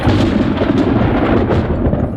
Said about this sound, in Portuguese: Ah, aí vem o relâmpago. Que nada mais é do que uma baita descarga elétrica.